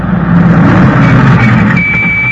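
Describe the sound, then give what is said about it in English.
A cargo truck drives close by on a dockside pier with a loud, continuous engine roar and broad rushing noise. A thin, high whine enters near the end. “look out! The cargo truck!”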